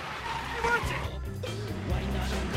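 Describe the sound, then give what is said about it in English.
A dog van's engine runs as it drives around a corner, with voices heard over the vehicle noise. “Harry drives his dog van around a corner wearing headphones, just missing a jogger.”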